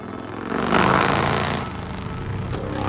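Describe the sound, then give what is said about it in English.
A motorcycle slowing down and turning in a wide arc: a loud, rough engine roar swells to a peak early on, then gradually eases off and stays at a lower, steadier level through the turn. “He raises his head over the visor and begins to slow down. He turns the motorcycle in a wide arc, then heads back in the same direction he came from.”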